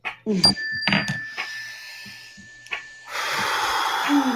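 A deep mindfulness breath, heard as a sharp, airy intake of air. A thin steady tone runs beneath it, and a longer breathy hiss follows.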